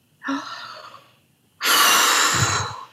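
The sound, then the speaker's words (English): A deep breath taken by a parent: a soft, airy inhale followed by a pause and then a longer, louder, rushing exhale, heard alone without speech. “Deep breath, right? Parent takes deep breath.”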